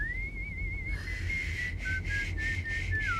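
A person trying to whistle after having lost the knack: a thin, wavering whistle that holds a steady pitch, then breaks into short uneven notes and ends with a downward slide, alone without talk.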